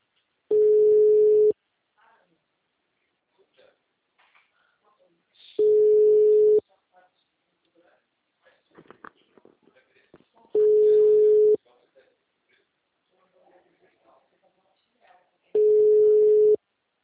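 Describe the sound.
Telephone ringback tone heard while a call is being placed: four steady, mid-pitched tones lasting about a second each, spaced roughly five seconds apart, with faint clicks and soft murmurs in the quiet gaps.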